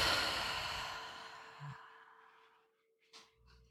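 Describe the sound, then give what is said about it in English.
Deep breathing in a guided relaxation exercise: a long, airy exhale whooshes out and fades gradually over nearly three seconds, followed by a short, softer breath. No one speaks. “take a deep inhale through your nose. And an easy exhale out of your mouth.”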